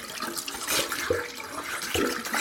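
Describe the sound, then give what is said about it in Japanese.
Running water splashes steadily while someone washes their face, a continuous hiss of flowing water with small splashy surges. “お父さんもまだ寝ています。アマールは顔を洗って、”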